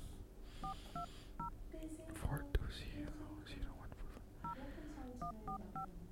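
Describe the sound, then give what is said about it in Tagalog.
Touch-tone telephone dialing to call a listener: short paired beeps in two quick bursts, with soft talking and whispering in between. “Okay, tawagan natin si Melanie, ha.”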